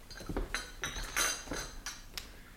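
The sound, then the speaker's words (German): Glasses and cups being cleared away: a quiet series of light clinks and clatters of glass and crockery, set down in quick, irregular succession. “räum die Gläser weg und die Tassen.”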